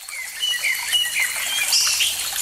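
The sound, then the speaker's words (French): Birdsong outdoors beside water at the end of a sunny day: many bright chirps and short whistles overlap continuously above a steady soft trickling hiss, with no voices. “Les lueurs du soleil se reflètent dans l'eau devant vous, les oiseaux chantent, quelques grenouilles commencent à s'activer.”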